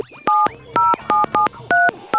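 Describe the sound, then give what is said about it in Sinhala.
Touch-tone keypad beeps as a phone number is dialed to call a woman, six steady two-tone beeps in an uneven rhythm, with no voices. “මම පොඩක් ඒ නෝනාගේ නම්බරේට call එකක් අරන් බලන්න.”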